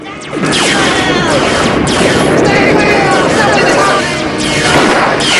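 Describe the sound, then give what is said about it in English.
Tank shells and laser blasts fire across an area where bandits hide, and a building block explodes. A dense, loud roar of booms, crashes and gunfire-like bursts starts after a brief quiet moment and continues steadily to the end. “Tank shells and space lasers shoot about the area, and Evil directs one of them at a building block which some of the bandits are hiding behind. It explodes and they run for cover.”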